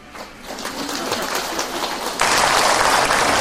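Hands clap in a dense, continuous patter during Buddhist recitation of Amitabha's name, the clapping growing abruptly louder partway through and holding at that level to the end.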